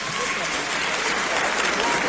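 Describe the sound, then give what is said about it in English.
Steady applause from a crowd of many hands, continuous dense clapping with no breaks or pauses throughout. “Yes, clap for me.”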